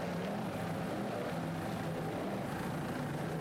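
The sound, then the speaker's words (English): Racing powerboat engine being worked on the throttle during a race gives a loud, continuous, low droning roar with slight pulsing, heard alone without voices. “Nice throttling there by Matt Rice.”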